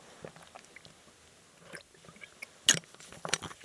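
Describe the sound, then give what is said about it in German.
Someone sips Cistus tea: faint, scattered mouth and slurping noises, with one brief, louder sip standing out among the quieter sounds. “Ich muss immer noch kurz einen Schluck von meinem leckeren Zystustee nehmen.”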